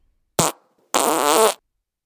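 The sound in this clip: A fart from a young woman: a short sharp burst, then after a brief gap a longer, loud, buzzing tonal one, heard alone.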